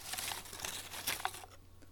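Faint paper rustling and crinkling as a folded slip is drawn from a draw and unfolded, a soft continuous scratchy rustle that quiets near the end.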